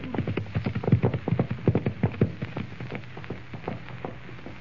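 Hooves of several horses with riders clip-clop at a trot in a Western setting, a quick, steady run of many sharp knocks that grows softer in the second half.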